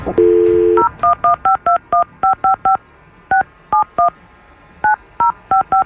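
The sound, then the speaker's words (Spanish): A telephone number being dialed long-distance to Zacatecas: a short steady dial tone, then many crisp, loud DTMF keypad beeps in quick groups separated by brief pauses, with no talking. “Ok, entonces vamos a marcar hasta Zacatecas.”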